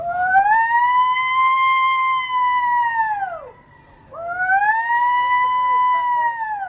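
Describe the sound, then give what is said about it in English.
A distress holler, the call used when in trouble or hurt, performed at a hollering event: two long, loud, siren-like wails from one voice, each rising, holding a high pitch and dropping sharply at the end, with a short gap between. “Another type of holler is called a distress holler, and this is if you were in trouble or hurt, and it sounds like this.”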